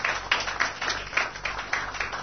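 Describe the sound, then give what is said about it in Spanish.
Farewell applause for a team of Uruguayan boxers: a crowd claps in a dense, continuous wash with regular swells, moderately loud throughout and without clear talk. “que los veamos y les entreguemos nuestro aplauso de despedida a estos boxeadores uruguayos”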